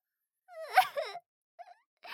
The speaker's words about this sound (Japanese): こんなの泣くに決まってるじゃないですか。